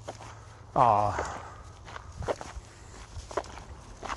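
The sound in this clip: Footsteps of someone walking home after midnight, a series of soft, regular steps with a voice speaking briefly over them near the start.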